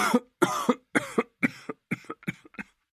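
A sickly orc bursts into a rasping coughing fit. Harsh coughs come in quick succession, some doubled, and grow shorter and fainter toward the end.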